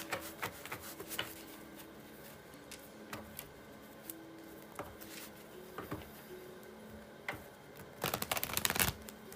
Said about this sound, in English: If you hear anything in the background, it's of course me shuffling the cards, the heater, or some calming frequency music.